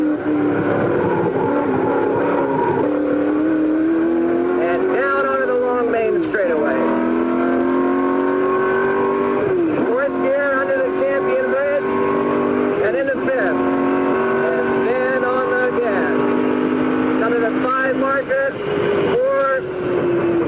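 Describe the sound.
Race car engine driven hard on a track through decreasing-radius corners, loud and continuous, its revs climbing steadily and then dropping sharply at several gear changes before climbing again.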